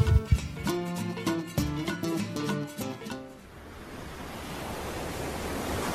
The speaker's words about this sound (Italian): Guarda quelle onde, Johnny.